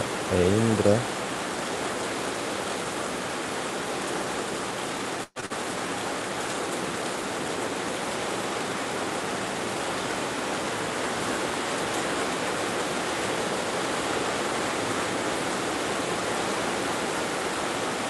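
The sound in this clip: Rain falling as a dense, steady hiss that runs unbroken for the whole stretch apart from one brief dropout near the middle.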